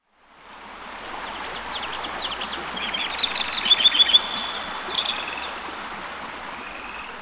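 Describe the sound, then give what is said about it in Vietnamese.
Flowing water of a mountain stream makes a steady, even rushing hiss throughout, and a few brief, high chirping calls rise over it in the middle. “Bạn có nghe tiếng nước chảy của một con suối bắt nguồn từ đỉnh núi gần đây không?”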